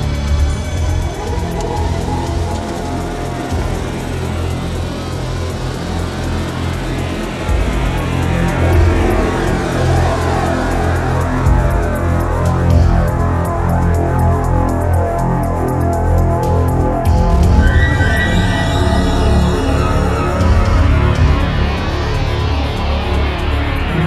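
A car accelerating on the road: a dense, continuous engine roar that stays loud and steady throughout, with some rising whining tones appearing higher up later on.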